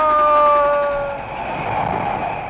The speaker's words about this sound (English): Looks like the train headed for Valley Ho.